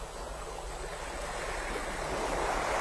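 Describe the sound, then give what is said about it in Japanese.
Ocean waves wash onto a beach at night, a soft continuous roar of surf and hissing water that swells gradually louder toward the end, with no voices. “波の呼吸が耳元まで近づいてくる。”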